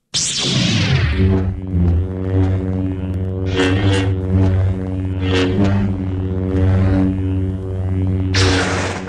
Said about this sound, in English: The good old lightsabers. It's the sound of good old lightsaber.